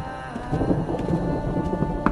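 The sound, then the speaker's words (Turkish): Heavy rain falls in a dense, steady downpour with a low rumbling undertone. The hiss stays continuous and fairly loud throughout, and no voices are heard. “Yağmur arttı.”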